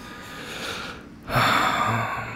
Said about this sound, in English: I take a deep breath here